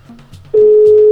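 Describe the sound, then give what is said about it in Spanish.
An outgoing telephone call: a few short low tones give way to a single steady ringing tone that sounds loud and unbroken to the end. “Ahí está ya timbrando. Vamos a ver si nos recibe la llamada Dana Sofía para felicitarla de parte de su papá.”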